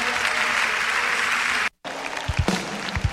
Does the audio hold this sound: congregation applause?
yes